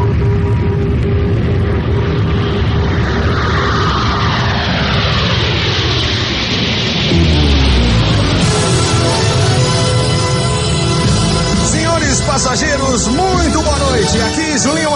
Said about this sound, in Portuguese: Atenção, tripulação de bordo, preparando para decolar.